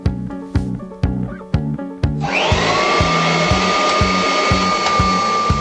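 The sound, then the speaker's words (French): A vacuum cleaner motor switches on after a run of regular low thumps, its whine quickly climbing in pitch and then settling into a loud, steady high drone that holds to the end. “l'émission radio idéale pour passer l'aspirateur.”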